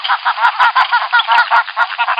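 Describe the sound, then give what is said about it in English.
Recorded flamingo calls played from a loudspeaker to a captive flock, a loud, rapid run of many nasal, goose-like honks in a quick, steady rhythm, with a thin, tinny tone and no talk. “decided to see if playing recorded flamingo calls from a speaker would inspire the birds to greater heights of romance”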